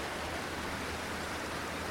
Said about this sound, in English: It's just a little ford here. So the water thunders over,